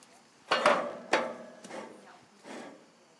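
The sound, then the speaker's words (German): Knocks and clunks as the lid of an outdoor grill is closed over walnut bread dough baking inside. A few sharp, hollow impacts, two louder and the rest softer, are spaced out over quiet background. “Klappe zu und jetzt müssen wir 50, 55 Minuten warten.”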